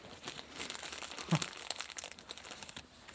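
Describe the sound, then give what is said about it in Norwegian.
Soft crinkling and rustling of wrapping as three pieces of 17th-century pottery, one with a greenish glaze, are taken out. The sound is faint and continuous, with a slightly sharper crackle partway through. “Nå tar du fram tre biter her. De er grønnaktig glasur på den ene, ser vi.”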